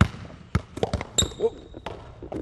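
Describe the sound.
Basketball dribbled on a streetball court: a series of sharp, irregular bounces of moderate loudness, with a brief high squeak near the middle.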